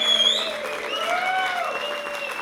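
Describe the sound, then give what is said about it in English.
Audience applause welcoming a musician onto a concert stage: a steady wash of clapping that holds at an even level, with sustained tones drifting above it throughout. “So Mr. Ian Ritchie, give him a good warm welcome.”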